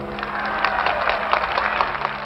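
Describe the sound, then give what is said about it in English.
An audience applauds at a political speech after mentions of Republican senators, a steady, dense wash of clapping of even loudness from start to finish. “Applause again at the mentions of Jacob Javits, the liberal Republican senator from New York, and Barry Goldwater, the conservative Republican from Arizona.”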